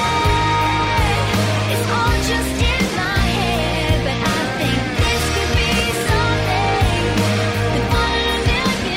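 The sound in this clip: A new single by a local Perth artist plays continuously, with a steady rhythmic beat under sustained melodic instrumental lines. No one talks over it.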